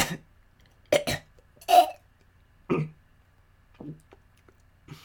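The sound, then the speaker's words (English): A woman coughs and hacks up phlegm: a few short, rough, throaty bursts spaced out by pauses, some in quick pairs, fairly faint and with no talking. “she found herself hacking up a glob of phlegm”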